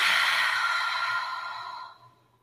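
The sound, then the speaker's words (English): A deep breath during a guided breathing exercise, heard as one long, soft, airy exhale that slowly fades away over about two seconds, with no talk over it. “take a moment to take a deep breath in and exhale.”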